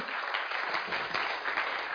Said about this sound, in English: Oh, I thought you clapped for that one.